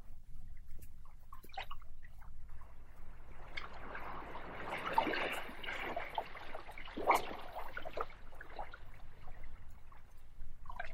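Sea water splashing gently against the sides of boats: soft, irregular lapping and trickling, faint throughout with a few slightly stronger splashes.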